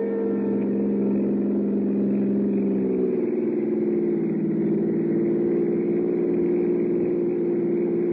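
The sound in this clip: A car engine in a radio drama hums steadily as the car pulls up. Its mid-pitched tone drops slightly partway through and then holds level at an idle.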